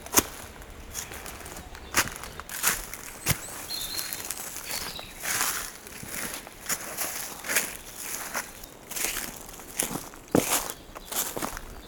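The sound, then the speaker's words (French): Footsteps walking toward a forest: many soft, irregular steps with crunchy, scuffing impacts that continue over a quiet outdoor background. “Et on va aller marcher à la rencontre de la forêt.”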